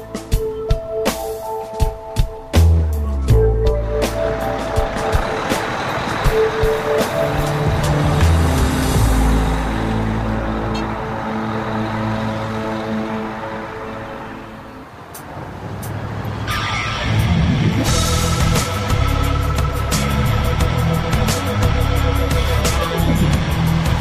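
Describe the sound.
A vehicle drives on the road, loaded with a bike and headed to a show in Michigan. Its engine gives a steady drone with shifting harmonic tones, a few bumps at the start, a brief dip midway, then a continuous roar again.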